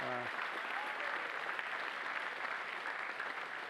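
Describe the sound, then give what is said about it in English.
A church audience applauds the tech team during a service, with steady, dense clapping that holds at an even, fairly quiet level throughout. “would you give it up for our tech team?”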